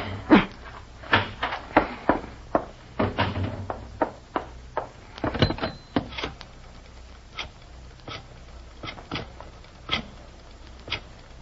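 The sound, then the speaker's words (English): A key fumbles at a stubborn door lock with many sharp metallic clicks and knocks in an irregular rhythm. Some come in quick clusters and others are spaced apart, over a faint, low background. “Key. Where's my key? This darn lock. This darn lock.”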